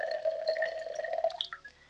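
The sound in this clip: Water being poured or sipped from a glass: a gurgling liquid sound with a steady ringing tone that breaks into a few splashy bits and then fades out, with no talk.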